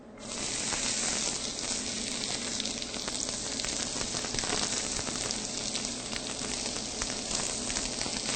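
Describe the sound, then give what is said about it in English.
Diced onions sizzling in two tablespoons of olive oil in a skillet, a steady, even crackling hiss that holds at a fairly soft level throughout, with no talk. “And then you can add 2 tablespoons of olive oil to the skillet. And then the onions.”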